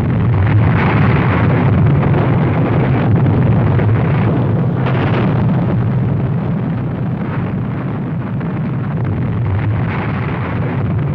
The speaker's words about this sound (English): Fat Man was dropped on the major military port of Nagasaki. The plutonium bomb was even more powerful.